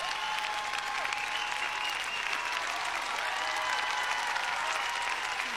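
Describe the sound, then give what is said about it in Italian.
Audience applause after a singer's performance, a steady, dense wash of clapping that holds even and fairly loud throughout with no voices over it. “Luca Tommasini, al quale farei un grandissimo applauso”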